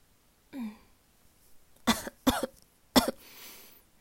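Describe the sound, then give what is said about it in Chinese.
A person coughing, three sharp, harsh coughs, the first two close together and the third after a short pause, otherwise quiet. “刚刚不咳嗽，现在有咳嗽了”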